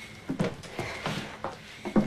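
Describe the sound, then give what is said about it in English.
A door opening, heard as a handful of dull clunks and rattles spread over about two seconds, moderately loud, with no talk. “The door behind them opens.”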